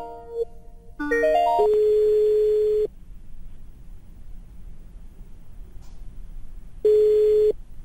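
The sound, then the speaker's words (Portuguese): A Skype call being dialed from an on-screen keypad: a short run of stepped electronic beeps, then a steady ringing tone that sounds twice with a quiet gap between. “Eu tenho aqui um teclado telefônico, eu simplesmente vou discar para o número.”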